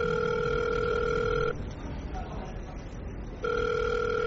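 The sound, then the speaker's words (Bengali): A phone ringing tone heard on the caller's end after a mobile number is dialed: a steady purring tone for about one and a half seconds, a pause of about two seconds, then the tone again, cut off at the end. “অনেকক্ষণ ring হওয়ার পর ওপাশ থেকে কেউ receive করল সেটা।”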